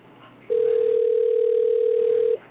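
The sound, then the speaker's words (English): Ringback tone on an outgoing telephone call: a single steady mid-pitched tone sounds for about two seconds over a faint hiss, then cuts off. “Wow, that's a lot of rings before you get voicemail, huh?”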